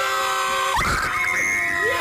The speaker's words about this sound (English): A scream.